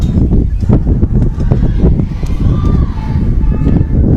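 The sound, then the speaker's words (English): Wind picking up outdoors on a morning at a softball game, buffeting the microphone as a steady, low, rumbling roar with uneven gusty pulses throughout. “There's the wind, obviously, you can hear it picking up here this morning.”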